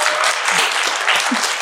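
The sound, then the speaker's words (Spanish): Applause for a guest doctor: a dense, steady burst of clapping from an audience, loud and continuous throughout with no gaps. “Un aplauso al doctor con mucho cariño.”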